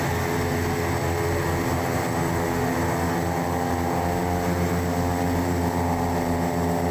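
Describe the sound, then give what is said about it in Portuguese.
Steady, loud engine drone from an aircraft landing at Teófilo Otoni airport, a constant droning roar that holds unchanged throughout with no voices over it. “Já passava das 5 horas da tarde, quando a aeronave que trouxe Flávio Bolsonaro pousou no aeroporto de Teófilo Otoni.”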